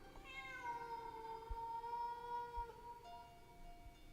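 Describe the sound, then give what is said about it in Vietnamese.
Stray cats yowling: long, drawn-out wailing cries that slide downward at first, then hold a wavering pitch, followed by a shorter, higher cry near the end. The cries are fairly faint, with no voices. “nghe như có tiếng mèo kêu ở đâu ghê quá”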